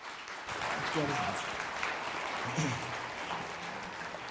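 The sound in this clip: Applause from a church audience welcoming a visiting missionary to preach at a morning service, a continuous wash of clapping with voices heard through it.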